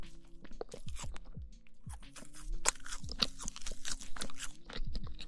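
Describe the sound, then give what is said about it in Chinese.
Soft crunching bites and chewing of a small cake, with many crisp crackles and moist mouth sounds in an irregular rhythm, fairly quiet and close throughout. “我发现细嚼慢咽的吃饭会让人饱得特别快。我要不是录音频吃饭的话，我估计早吃完了呢。现在没有吃完这块小蛋糕，没有吃完茶，没有喝完饮料，我就饱了。”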